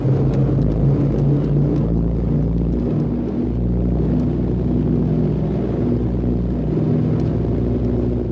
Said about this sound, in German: Drei Neunzylinder-Sternmotoren mit je 650 PS beschleunigen auf sagenhafte 120 Stundenkilometer und dann geht's ab in die Luft.